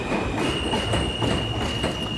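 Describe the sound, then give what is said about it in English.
A subway train passes with a loud, steady rumbling roar and rhythmic wheel clatter, and a constant high-pitched squeal runs through the whole pass. “And that, ladies and gentlemen, is the M train.”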